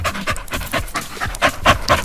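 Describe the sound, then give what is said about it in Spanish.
A hot, tired dog pants in quick, rhythmic bursts, many breathy huffs following one another at a steady pace, fairly loud and with no voices over them. “Ese perro tiene mucho calor, está cansado.”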